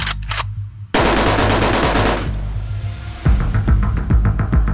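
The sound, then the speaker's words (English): Machine gun fire in a real shootout between gunmen and federal agents: loud, rapid automatic bursts, with a sustained roar of fire in the middle and distinct sharp shots repeating toward the end. “Attention all units, for information, I have shots fired with machine guns at 120 Street,”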